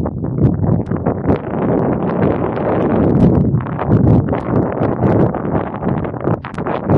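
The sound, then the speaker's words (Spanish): Wind blowing into the microphone outdoors beside unsown fields: a loud, continuous rough rumble with uneven buffeting gusts throughout. “Perdonad por el viento, pero para mí es muy agradable el viento”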